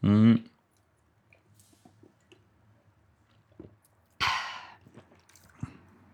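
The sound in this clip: Sipping Saint-Feuillard Grand Cru wine: a short slurp at the start, then quiet mouth clicks and smacks, a longer breathy exhale, and a few more faint clicks.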